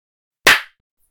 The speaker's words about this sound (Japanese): 手を叩くと、すっきり目が覚めて、これまでの暗示も、すべて消えてなくなります。